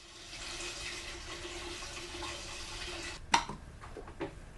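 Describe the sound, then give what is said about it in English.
Running water at a kitchen sink while feeding bottles are washed: a steady wash of water, then a sharp knock of a bottle against the sink and a few softer clatters. “At home in the kitchen, Ella stands on a box as she washes feeding bottles.”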